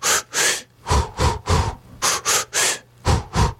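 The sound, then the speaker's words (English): Rhythmic, staccato breathing demonstrated by a man: many short, sharp breath bursts in quick succession, separated by brief pauses, with an even, loud pulse and no speech. “So I'll see if I can make the sound for people listening. So I can breathe rhythmically but staccato.”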